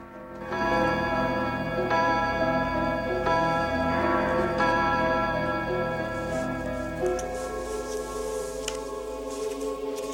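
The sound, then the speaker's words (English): A clock strikes eight in the evening, heard as a few resonant chime strokes spaced a second or so apart. Each stroke rings into a sustained, slowly fading metallic tone, with no talk. “writing busily as the clock strikes 8 p.m.”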